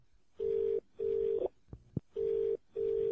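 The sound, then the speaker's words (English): A telephone call being placed: four steady electronic tones of even length in two pairs, with a brief click in the gap between the pairs. “Dialing.”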